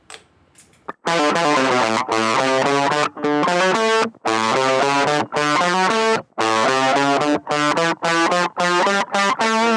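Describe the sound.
Harsh, ugly distorted effects-unit tone made for a song, blaring loud and buzzy in a rhythmic run of sustained, harmonic-rich chunks broken by short gaps, with no talk.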